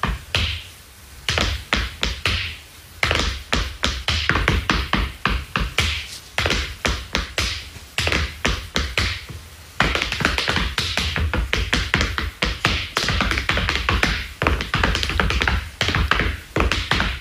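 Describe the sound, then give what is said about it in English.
Dancing shoes tapping in many sharp, quick clicks, in rhythmic bursts with short gaps early on, then denser and steadier taps toward the end. No voices are heard. “Honestly, I didn't even know that these types of shoes... made this noise, right?”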